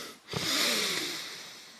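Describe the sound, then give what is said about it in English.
A single deep breath drawn in slowly, a steady, loud, breathy rush lasting more than a second and fading gently at the end, with no talk. “This is your reminder to take a deep breath.”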